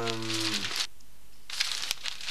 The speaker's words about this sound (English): Do you have any paper? I'll write it down. Yes, I have some here somewhere.